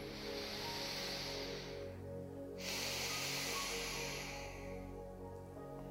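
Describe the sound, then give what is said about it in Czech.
A slow, deep breath in and out during a relaxation exercise: a soft, airy hiss, a short pause, then a second long hiss over a faint low hum. “Tak, první nádech a výdech.”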